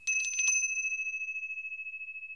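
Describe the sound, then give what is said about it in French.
A small bell rings with a single bright strike, then holds a high, clear tone that pulses with a steady shimmer and slowly fades. “Ça va, on vient, on arrive. Maudite clochette.”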